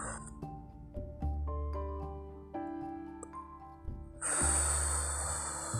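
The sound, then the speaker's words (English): A long, loud rush of breath near the end, from a deep breath taken during a calming stress-relief exercise, heard over soft, sustained musical tones. “take a deep breath in.”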